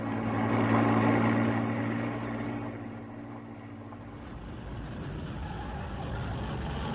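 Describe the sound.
A car engine idles at a roadside stop, giving a steady low hum with rumbling undertones. It is strongest for the first few seconds, then softens and carries on quietly.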